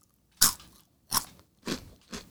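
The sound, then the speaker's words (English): Loud, crisp crunches of biting into Cheetos: four sharp bursts of crackling come at roughly even intervals, each fading quickly, with no talk. “That sounds like a Cheeto. I know I've said Cheetos a lot, but that one actually sounds like a Cheeto.”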